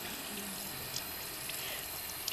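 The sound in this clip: Tap water runs steadily from a faucet during hand washing with soap, a continuous even hiss of splashing water with no break.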